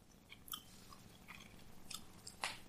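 Someone chews young vegetables, giving a few faint, crisp crunches spaced irregularly over a soft background.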